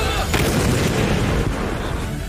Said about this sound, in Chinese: 随着指挥员一声口令，122毫米车载榴弹炮率先出击，数门火炮依次开火，一发发炮弹破膛而出，直击目标。